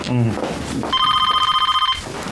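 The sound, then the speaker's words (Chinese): A telephone rings with a rapid, trilling electronic bell in one burst of about a second, after a brief voice at the start. “哟，等一下啊，我先接个电话啊。”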